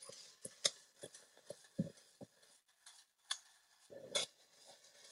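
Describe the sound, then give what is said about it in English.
Six eggs being stirred in a bowl, an irregular run of faint clinks and ticks as the utensil hits the bowl, broken by a few softer scraping strokes around the sides. “I can tell if the eggs are all stirred in or not just by this liquidy sounds and how they're, you know, they're kind of telling by feel. So I'm just making sure I'm scraping all around the bowl here.”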